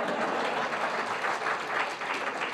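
Dense audience clapping, continuous and even across the short stretch, with no voices standing out over it.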